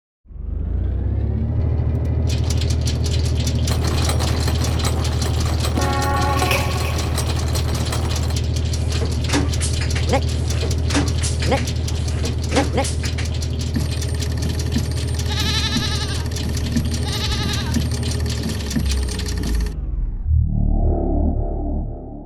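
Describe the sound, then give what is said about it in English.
A random number generator makes strange mechanical sounds: a loud, sustained whirring drone with ratcheting clicks, warbling tones and pings for about twenty seconds. It ends in a brief, different burst. “So let's turn on the random number generator.”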